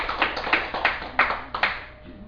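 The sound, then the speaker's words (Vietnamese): Audience clapping after a call for applause at a Buddhist dharma talk: a handful of separate sharp hand claps in a loose, uneven rhythm, with no talk over them. “Xin quý vị hãy tặng tràng hoan tay.”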